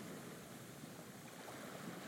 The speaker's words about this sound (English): The hum of the engines is loud yet calming.